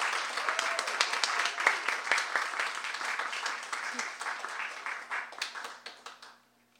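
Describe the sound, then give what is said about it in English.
Audience applause welcoming two speakers at a Skylight event: a warm burst of clapping that holds steady, then thins into a few separate claps and dies out at the end. “If you could all please put your hands together and give a warm skylight welcome to Claudia and Josie.”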